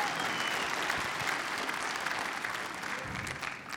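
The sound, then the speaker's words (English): Audience applause for a volunteer at a live talk: dense clapping that holds at an even level from start to finish, with no voices standing out. “Give Noah a hand.”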